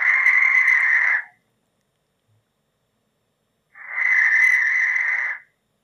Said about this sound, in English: That is the call of the barn owl, and many species of owls feature in the Harry Potter novel and film franchise.